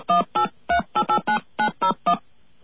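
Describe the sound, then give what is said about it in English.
Touch-tone telephone keypad dialing to reach code 388, a quick, evenly paced run of short, loud, two-note beeps with no voices. “Let's see what happens when we dial 388.”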